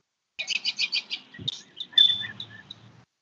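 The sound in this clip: Birds chirping in a quick run of about six bright, high chirps, followed by more scattered, uneven calls that end in a softer trailing twitter. No voices.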